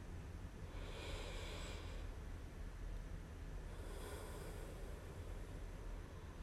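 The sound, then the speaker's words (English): Deep grounding breaths drawn slowly through the airway. Soft, airy swells of breath noise rise and fade over a steady low hiss, with no talking. “let's just settle in and take a grounding breath or two together”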